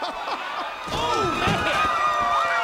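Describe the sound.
A wrestler body-slams an opponent onto the ring during a Christmas-themed show, giving a heavy thudding slam over a loud, constant crowd roar.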